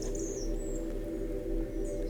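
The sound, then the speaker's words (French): Faint birdsong in a forest: a few brief, high chirps rise occasionally above a steady low hum that runs throughout. “où quelques éclats de chants d'oiseaux à peine perceptibles rebondissent ici.”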